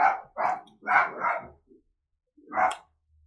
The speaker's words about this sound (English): Forgive the barking. That's just my dog outside.